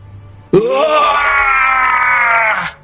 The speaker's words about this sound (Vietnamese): Tiếng kêu thảm vang trời, ngũ thông thần đau đớn quằn quại, khí tức suy kiệt ở trong nháy mắt.